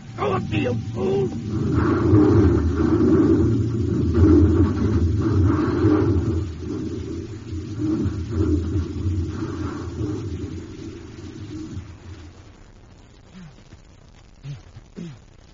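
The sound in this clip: Spaceship engine rumbling as the craft crashes: a loud, dense low roar holds steady for about twelve seconds, then drops away, leaving quieter scattered sounds at the end.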